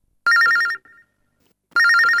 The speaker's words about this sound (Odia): ଚାଲ ଦେଖିବା କିଏ ଫୋନ କରିଛନ୍ତି ଆଉ କୋଉଠୁ କରିଛନ୍ତି।